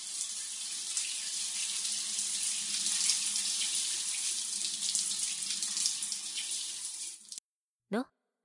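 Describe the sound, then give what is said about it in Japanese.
Water pours steadily from a tap while someone's back is rinsed in a bath. A loud, continuous splashing hiss stops abruptly near the end and is followed by one brief, short sound. “ほら、背中流してあげる。”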